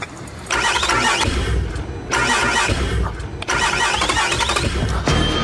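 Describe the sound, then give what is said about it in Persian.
Car engine cranking without catching, in a few loud, rough grinding bursts separated by short breaks, with no idle following. “روشن نمیشه. سویچو بردار و دوباره امتحان.”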